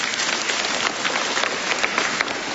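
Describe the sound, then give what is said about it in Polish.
Clapping for a visiting parish group at a church gathering at a sanctuary, a dense, even patter like rain that holds steady from start to finish. “Brawa dla nich.”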